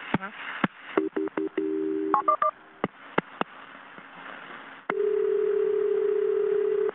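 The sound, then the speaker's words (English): Telephone dialing tones as a 911 call is transferred to a fire department: a quick run of short touch-tone beeps and clicks, then a long steady tone that holds to the end. “Let me go ahead and get you over to Charlotte Fire. Stay on the line. Don't hang up, okay?”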